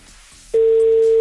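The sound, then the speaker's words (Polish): A telephone ringing tone on an outgoing call: after a quiet half-second, one steady mid-pitched tone starts and holds unbroken to the end. “Zaraz się okaże, czy odbierze telefon. O, jest sygnał.”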